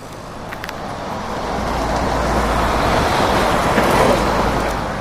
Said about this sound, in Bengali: সোঁ শোঁ শব্দ করে ট্রাকগুলো পাশ দিয়ে চলে যাচ্ছে